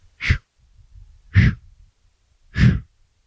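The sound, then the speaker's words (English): Three short, forceful breaths push out through the mouth during a breathing exercise. The breathy puffs are evenly spaced about a second apart, with quiet in between. “Now exhale through the mouth, slowly. Like you're blowing through a straw. Slowly, slowly. And at the bottom of the breath, push out 3 more times.”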